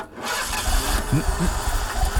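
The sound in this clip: A truck engine failing to start, played as a radio sound effect: a steady, churning crank with a low rumble that never catches into a running idle.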